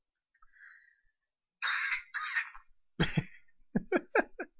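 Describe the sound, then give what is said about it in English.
A person choking and coughing: after faint quiet sounds comes a strained, rasping breath, then a run of several sharp, harsh coughs in quick succession. “You alright over there? Trying to be. Choking? Yeah, you choking.”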